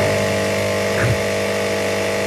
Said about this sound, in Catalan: el primer sintetitzador de la història, que és aquest instrument, es deia, atenció, intona rumori. Com? I sonava d'aquesta manera.